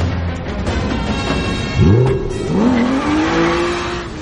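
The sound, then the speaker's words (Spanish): A car engine accelerating during a chase along a lonely country road at night revs up twice, its pitch climbing sharply each time, loud over a rushing background of road and wind noise. “Persigue a los dos coches por una carretera solitaria que atraviesa la oscura campiña pierde a los coches de vista.”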